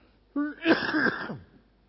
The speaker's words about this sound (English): Excuse me while I cough.